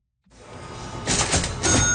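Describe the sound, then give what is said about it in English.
An antique, custom-made 1907 cash register rings in a hotel lobby: a rising mechanical clatter and rattle, followed by a bright, sustained bell tone near the end. “A familiar ring is once again echoing through the lobby of a historic Winnipeg hotel. It belongs to a custom-made cash register, once used at the Northern Hotel, starting in 1907.”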